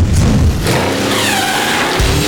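A car accelerating and skidding: a loud, sustained revving engine roar mixed with high tire squeal, continuous and without pauses throughout.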